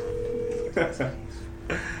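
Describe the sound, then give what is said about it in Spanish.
Telephone call tones: a steady tone holds for under a second, then a few short, bright tone bursts follow at uneven gaps. The tones are fairly faint throughout. “no contesta. Llamamos a Teresita Collas.”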